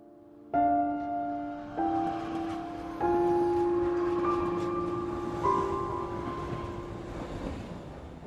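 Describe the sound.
A train pulling into a station, loud sustained metallic tonal squeals entering in steps over a steady low rumble, holding and layering for several seconds before easing slightly toward the end.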